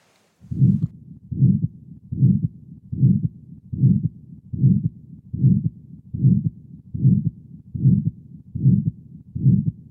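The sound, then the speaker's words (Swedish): Rough, harsh systolic heart murmur of aortic stenosis, a low whooshing pulse repeating many times in a steady, regular rhythm, heard alone. “Och så blåsljudet så som det låter vid en aortastenos igen.”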